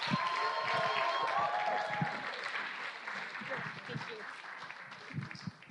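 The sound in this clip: Audience applause welcoming a speaker to the stage at a school Spiritual Emphasis Days gathering: steady clapping from many hands, loud at first and gradually thinning and fading toward the end.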